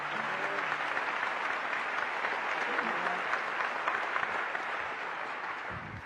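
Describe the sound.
Audience applause welcoming a guest on a show, a steady, fairly soft wash of clapping sustained evenly from start to finish.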